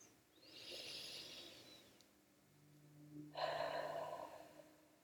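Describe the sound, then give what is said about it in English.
One slow, deep breath: a soft, airy inhale through the nose lasting over a second, a pause, then a louder, breathy exhale through the mouth, all faint over a low hum. “Let's take a deep breath together. In through the nose, out through the mouth.”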